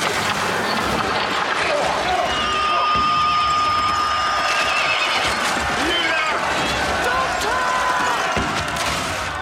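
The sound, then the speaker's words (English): Horses whinny and hooves pound as mounted guards ride in a cavalry charge, the loud galloping and neighing sustained throughout over a roar of crowd noise. “The guards! They are riding beasts! A cavalry charge.”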